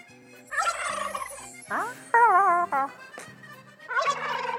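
Fowl-like clucking and squawking calls come in several bursts, with choppy, warbling notes between short pauses and a final run of rapid clucks.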